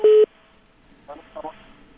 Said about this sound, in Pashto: این تلفن هم قطع شد خیر مشکل تلفنات داریم